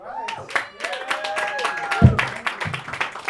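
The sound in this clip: Applause for a comedian at a stand-up comedy show, a steady patter of many hands clapping under a man speaking loudly over it.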